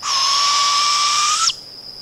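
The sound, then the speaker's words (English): A female barred owl calls for a mate: one loud, sustained, high-pitched screeching note that holds steady for about a second and a half, then cuts off abruptly and leaves a faint hiss. “That's the sound of a female barred owl calling for a mate.”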